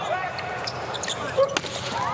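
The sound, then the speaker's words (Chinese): A serve in a volleyball match with the US team gives a single sharp thud of hand on ball midway, over steady crowd murmur and talk. “罗马诺的发球，好发球，”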